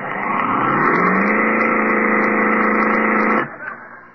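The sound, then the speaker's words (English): Comedy sound effect of a car roaring off at speed, a jalopy boasted to hit 110 miles an hour on lighter fluid; a loud, steady engine whine with climbing tones holds for about three and a half seconds, then cuts off abruptly. “Doris, it'll go 110 miles an hour, and besides, it's very economical. You just fill it up with lighter fluid, drop in a four-way coal tablet, and hang on. Fasten your safety belt and brace yourself, Doris. Here we go.”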